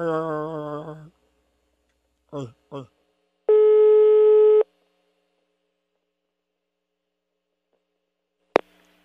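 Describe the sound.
A phone line's ringback tone heard after dialing a prank call: a voice at the start, then a single steady one-second tone in silence, and a sharp click near the end.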